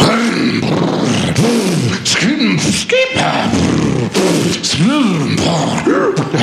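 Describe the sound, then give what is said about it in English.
A man's voice imitates a go-kart engine warming up: loud buzzing vroom sounds that swoop up and down in pitch, repeated several times with brief breaks between them. “I'm warming up my go-kart.”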